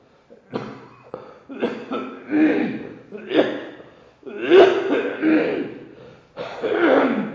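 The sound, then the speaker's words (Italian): Repeated harsh coughing during a guided meditation session: a long series of short, irregular bursts separated by brief pauses, loud and alone. “scusate con la tosse che interrompe di tanto questa meditazione o visualizzazione”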